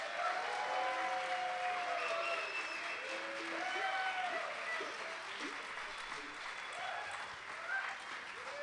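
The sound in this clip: Sustained audience applause welcomes the band Shadowgrass onstage at a Bucks County, Pennsylvania show, a steady wash of clapping that holds at an even level throughout.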